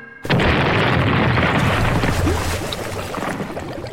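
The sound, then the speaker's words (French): A real boat explodes in a staged film stunt. A sudden, loud blast breaks in and turns into a dense, sustained roar that eases slowly toward the end. “Et lorsque le scénario l'exige, elle n'hésite pas à faire exploser de vrais bateaux.”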